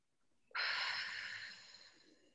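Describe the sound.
A deep breath, held during a breathing exercise, is let out in one long, airy exhale that starts abruptly and fades over about a second and a half, heard alone.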